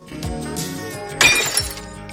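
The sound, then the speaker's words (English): A drinking glass thrown into a fireplace shatters in one sharp crash, with a short spray of bright tinkling fragments over a soft, steady musical background. “Having downed her drink, she casts the glass into the fireplace.”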